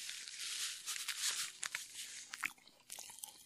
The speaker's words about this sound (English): over the next couple of seconds, you're going to get like some Pop Rock ASMR. I don't know if that's going to get picked up or not. I hope it does, because it's going wild.